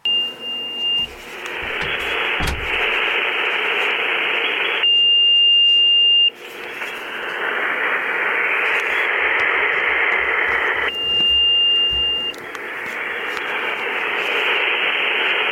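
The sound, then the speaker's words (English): An amateur radio receiver tuning up on top of a net frequency gives steady rushing static, broken three times by a thin, steady whistle tone that cuts out as the hiss returns. “an audio file here as an example of one of the most recent nets, or this net took place within the last month or so. And this is what it sounds like when you're tuning up on top of the net frequency.”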